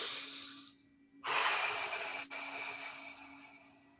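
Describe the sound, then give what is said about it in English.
A long, slow exhaling breath from a calming breathing technique, a steady airy rush lasting a few seconds after a shorter, softer breath, with no talking. “And then you extend your breath out. You make it longer. And calming down starts with breathing out longer.”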